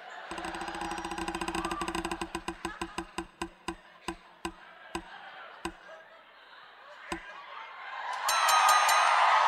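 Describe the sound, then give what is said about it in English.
A spinning prize wheel clicks in rapid ticks that slow and spread out until the wheel stops, followed by a louder burst of broad noise, all over a steady background bed. “can we roll the wheel?”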